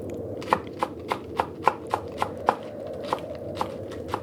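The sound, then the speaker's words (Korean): Knife chopping green onion and radish on a cutting board as a grandmother makes breakfast in the kitchen; many crisp, sharp taps in a steady, even rhythm over a quiet background, with no voices. “방 밖에서 할머니가 아침을 준비하는 소리가 들려왔다.”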